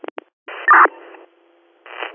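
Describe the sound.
Emergency radio dispatch alert tones: a few quick clicks, then steady electronic tone bursts, one noticeably louder, a faint low hum, and finally a short rush of radio static.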